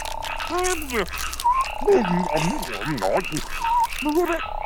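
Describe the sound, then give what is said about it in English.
A voice imitates a frog trying to whistle while eating peanut butter. Loud, continuous warbling croaks and muffled whistle-like tones wobble up and down in pitch. “It's the sound of a frog trying to whistle while eating peanut butter.”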